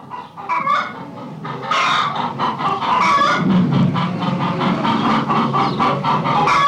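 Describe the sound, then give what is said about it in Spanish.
Hen clucking in a busy run of many short, sharp calls, loud and dense throughout, with no voices. “Gallina. Gallina. Gallina.”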